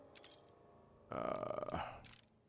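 A minigun is dropped from the inventory in the video game Fallout. A soft metallic clink comes first, then a louder rattling clatter with a ringing tone that fades out, then one brief final clink.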